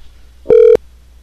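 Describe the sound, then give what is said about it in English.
A single short keypad beep as a telephone number is dialed: one steady mid-pitched tone lasting about a quarter second, alone over a faint low hum. “The number you just dialed is available for your marketing campaign.”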